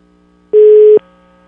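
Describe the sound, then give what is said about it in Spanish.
A single steady telephone tone, a loud, flat, mid-pitched beep lasting about half a second, heard alone as a phone call goes to voicemail. “No, me mandó al buzón. Le voy a dar una segunda oportunidad.”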